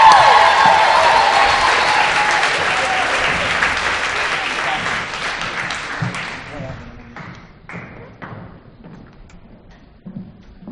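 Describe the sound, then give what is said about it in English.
A Houston audience applauds loudly to welcome a speaker, a dense roar of clapping that gradually fades over several seconds and leaves scattered claps and thumps near the end. “Give her a hand. Welcome to Houston.”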